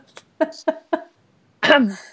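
Coughing: three short, sharp bursts in quick succession, then a pause and a longer, harsher final cough, each loud against near silence.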